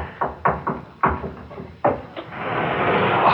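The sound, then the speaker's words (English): Knuckles tapping on a wall while searching for a hidden release: a few hollow knocks at uneven intervals, followed by a steady noise that builds and holds at the end. “Now that we know what to look for, there must be a hidden release. Here, tap against every part of the wall. That's it. Keep tapping all over.”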